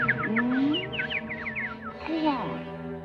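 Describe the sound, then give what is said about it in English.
Chirping from a flock of sparrows in a tree, with many quick, high tweets overlapping in a busy, chattering cluster. “Outside, the vultures leer at a flock of sparrows in a tree.”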